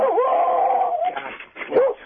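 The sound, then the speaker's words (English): A dog howls in a long, wavering tone, then gives a few shorter, rougher barks and yelps, ending with one brief rising-and-falling cry; fairly loud and alone. “And sorry about that, my dog.”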